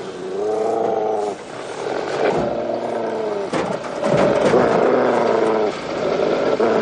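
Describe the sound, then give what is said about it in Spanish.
A German shepherd growls threateningly in a scrapyard, with loud, low, rough growls that come in several long bursts separated by short breaks. “De pronto, un gruñido cercano capta su atención.”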